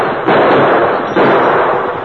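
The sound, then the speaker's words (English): Gunshots fired at long range by riders during a Western chase: two sudden loud blasts, each followed by a long, rough, noisy tail that hangs on without fading much. “They opened fire, but the distance was too great for accurate shooting.”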